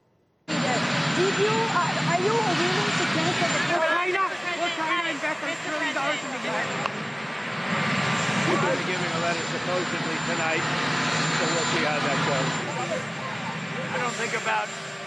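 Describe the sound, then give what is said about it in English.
A presidential helicopter's loud, steady rotor and engine roar drowns out an impromptu outdoor press event, with several voices talking underneath the noise throughout. “Key policy announcements made in moments like these, incomprehensible impromptu press events drowned out by the sound of Marine One.”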